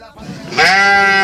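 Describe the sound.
A woman's voice imitates a sheep bleating: one short, loud, wavering bleat follows a brief, quieter onset, heard alone.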